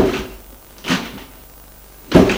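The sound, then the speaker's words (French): Doors opening, heard as three separate clunks: one at the start, one near the middle and a louder, sharper one at the end, with quiet pauses between them. “Les portes s'ouvrent.”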